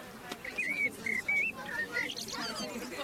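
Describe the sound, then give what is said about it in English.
Bird calling at dawn, outdoors just before sunrise: a run of a few short, high, whistled notes, some slightly rising, heard faintly over a low steady background murmur. “Listen. What bird is that here? Bird?”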